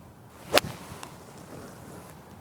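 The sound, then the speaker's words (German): A golf club striking a ball on a course during a round, heard as one sharp, crisp swish-crack followed by quiet outdoor ambience. “Ist vor allem auch ein Golfschlag.”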